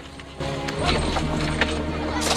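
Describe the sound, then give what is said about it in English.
Hoof clatter from a long line of horses pulling carts loaded with rolls of turf up a hill: a few scattered knocks stand out over a steady, busy background. “A long line of horse and carts carry rolls of turf up the hill.”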